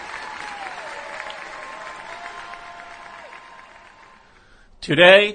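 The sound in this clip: Audience applause, a steady wash of clapping that gradually tapers off, followed by a loud voice speaking at the very end.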